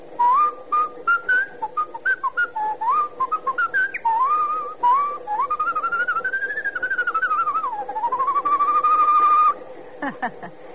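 A person whistles the tune Yankee Doodle as a clear, sustained melody of gliding notes, with a long held phrase near the end before a few short chirps.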